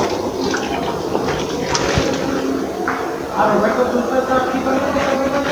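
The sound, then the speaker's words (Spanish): Water runs from a tap while someone washes their hands in a bathroom at a shelter in Guadalajara, Jalisco. The steady hiss continues under people talking. “Estoy lavando las manos.”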